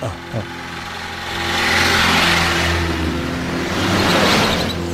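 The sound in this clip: A car engine runs as the vehicle pulls over to stop, a steady low drone with a short knock near the start and broad swells of engine and road noise rising through the middle and again near the end.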